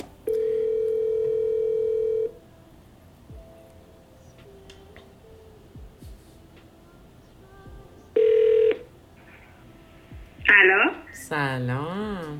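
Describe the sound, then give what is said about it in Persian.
A telephone call being placed: a long steady dial tone, then faint clicks, a short second tone, and a warbling ring near the end as a voice begins. “زنگ بزنیم بهش ببینیم کجاست اگه وقت داره.”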